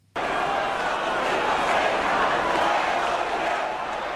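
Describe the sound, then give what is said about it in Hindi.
Thousands of people chant slogans while marching through the streets of Barcelona, waving Spanish flags to protest Catalan independence. A dense, steady roar of massed crowd voices starts abruptly and holds at a loud, even level throughout. “नारे लगाते, Spain के झंडे लहराते, Barcelona की सड़कों पर मार्च करते हजारों लोग।”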